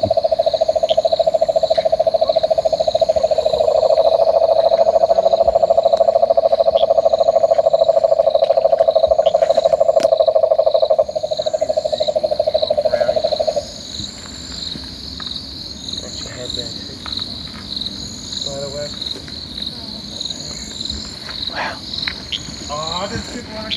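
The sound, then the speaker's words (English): Cane toads call at a water body with a loud, continuous low trill that drones steadily for more than ten seconds and then stops. A constant high chirping of insects runs throughout. “there is some uh, cane toad calling”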